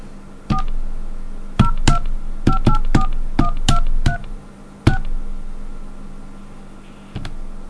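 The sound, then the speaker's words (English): Touch-tone dialing of a phone number on a long-distance access line: a rapid string of many DTMF key beeps, some in quick clusters and others spaced apart, with a faint hiss on the line between presses. “I'm flashing. It's 1010732 and then 1 and any number. I'll just dial some random number.”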